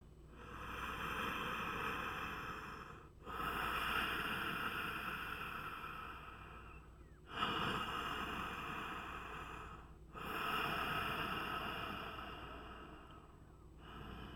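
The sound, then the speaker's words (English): Oceanic, hissing yoga breath drawn through the back of the throat with the mouth closed, heard alone as four long, even swells of breath, each lasting three to four seconds, separated by brief pauses. “It's as if you're fogging up a mirror with your mouth closed. You should feel the breath at the back of the throat. It's an oceanic hissing sound. It sounds something like this.”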